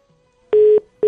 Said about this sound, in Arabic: باه قطعت المكالمة هذه صاحب وصاحبة المكالمة.